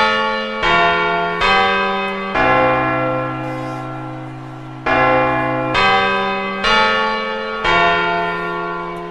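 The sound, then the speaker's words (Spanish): Carillon bells strike the quarters ahead of the New Year chimes in a sequence of loud, resonant tolls at shifting pitches. Each strike rings on and overlaps the decay of the last, with no voices. “¡Van a llegar el momento a las campanadas! ¡El carrillón, el carrillón! ¡Ahora los cuartos!”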